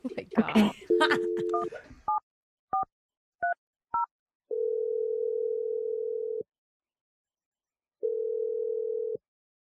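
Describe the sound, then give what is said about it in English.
Keypad tones as a telephone number is dialed. A voice is heard at the start, then several short electronic beeps follow, then two long, steady line tones separated by a pause. “I'm gonna dial the number right now”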